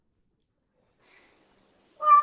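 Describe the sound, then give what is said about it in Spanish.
A cat gives a single short, fairly loud meow at the end, after near silence broken only by one faint, brief sound. “¡Ay, el gato!”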